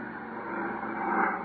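Airplane taking off, a faint steady engine roar that swells slightly over its short span with no clear breaks.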